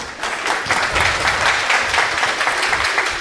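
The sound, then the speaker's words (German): Applause sound effect: a dense, steady wash of many hands clapping, loud and continuous for the whole stretch with no talk over it. “das ist der billige Applaus jedes Mal.”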